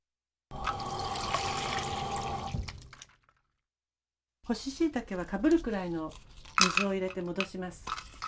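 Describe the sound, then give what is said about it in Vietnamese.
Water poured over dried shiitake mushrooms to soak them, a steady splashing pour lasting about two and a half seconds, then a short silence before a person talks. “Chỉ đổ nước vừa đủ để ngập nấm.”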